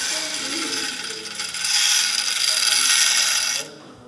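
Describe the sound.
A grain analyser measuring the density and moisture of a barley sample, giving off a steady mechanical rattling whir that grows louder midway, then stops abruptly shortly before the end.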